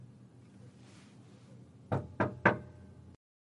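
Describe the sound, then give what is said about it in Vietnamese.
Three quick, hard knocks strike a door from outside, urgent and closely spaced, sharp and loud over a faint low background hum before they start. “Tiếng gõ cửa dội vào gấp gáp từ phía bên ngoài.”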